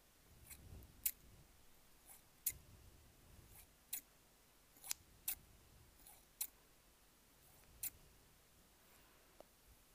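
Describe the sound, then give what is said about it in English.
Scissors being picked up and handled, giving faint, crisp metallic clicks at irregular intervals, several of them, over a quiet hiss. “we're going to grab some scissors and just”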